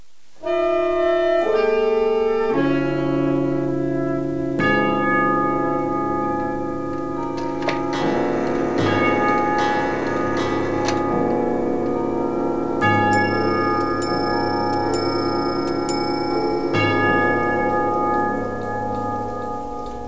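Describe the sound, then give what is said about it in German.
Several clocks striking the hour together. Layered bell-like tones step through a chiming melody, and a high ringing chime pattern joins later. The sound stays loud and sustained throughout. “Mrs. Thompsons Uhren schlagen.”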